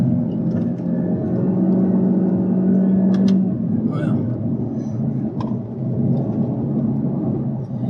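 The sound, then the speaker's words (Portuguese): A Honda Civic engine revving hard while cornering, a loud, sustained droning roar with voices talking over it the whole time. “O motor ele grita, né? Você tá vendo? É, é, é ele tá gritando.”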